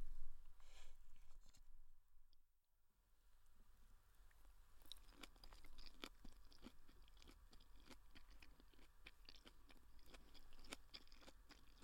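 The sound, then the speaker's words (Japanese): Chewing and eating with a spoon, a meal with crunchy cabbage: many soft crackly bites and wet chews over a steady background hiss, briefly quieter near the start. “お腹減ってたから、サジが止まらんね。まだまだ食べるあるよ。”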